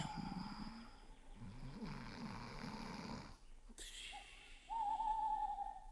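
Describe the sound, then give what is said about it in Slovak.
An owl hoots: first a brief hoot, then a longer drawn-out one, both fairly loud steady tones. A stretch of low rumbling snoring comes before the hoots. “No a to iba sova húka.”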